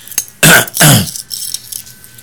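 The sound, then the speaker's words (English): Two loud, harsh coughs in quick succession, each a short rough burst, followed by quiet background with faint small noises. “I hate it when the air comes in and makes me cough.”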